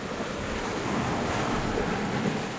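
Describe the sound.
Sea waves wash against the old walls of Saint-Jean d'Acre, a steady, rushing surf mixed with blustery wind noise, continuous and fairly even in loudness.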